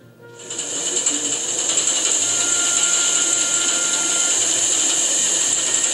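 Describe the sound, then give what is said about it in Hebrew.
Steady mechanical whirring and ratcheting from a wool spinning machine stretching and twisting fibre into yarn. It builds over the first second, then holds an even, continuous clatter with a bright high hiss running throughout. “מה המכונה עושה? המכונה עושה שתי פעולות, מותחת, כן, ומסורבת. פותח, מסורב. קודם זה היה צמר, עכשיו זה חוט.”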